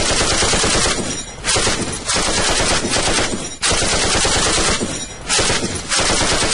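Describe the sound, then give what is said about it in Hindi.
Machine-gun fire in cross-border fighting near border villages in Jammu and Kashmir. Loud, rapid rattling comes in several long bursts separated by brief pauses, with no voices. “कई kilometre और सरहदी गांवों में भी गोलियों की गड़गड़ाहट शत्रु की मौजूदगी का एहसास कराती थी।”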